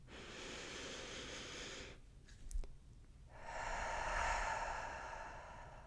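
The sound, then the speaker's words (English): A deep, mindful breath taken by a single person: a long, airy rush of breath, a short quiet pause, then a second, slightly louder and fuller breathy rush that fades slowly. The breathing is steady and soft, with no talking. “let's stop and take a nice mindful breath like we do each time.”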